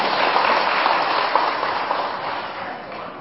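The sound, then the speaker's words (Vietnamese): Applause from the audience at a Buddhist dharma talk: a dense, steady wash of many hands clapping that holds evenly and fades slightly toward the end. “Cho anh chàng pháo tay.”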